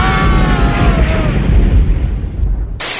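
Concussion rockets explode in a dense, loud, rumbling roar that carries a whining tone early on and cuts off abruptly near the end.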